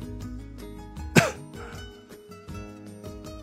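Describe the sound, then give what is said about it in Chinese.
A single soft, short cough from an actor on a film set during a take, rising briefly above a steady bed of music. “突然偏过了头，轻轻咳了一声”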